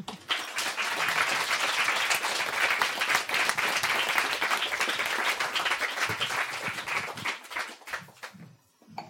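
Warm audience applause welcomes guests at a literary event at the Oslo House of Literature: dense, steady clapping that holds for about eight seconds and then thins out and fades at the end.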